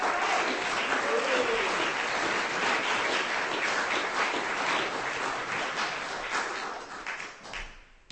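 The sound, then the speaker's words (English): Audience applause at a reading as a speaker is welcomed to the stage: dense, steady clapping that holds for several seconds, then thins and fades toward the end. “The good Dr. Gary Wade. Give him a hand.”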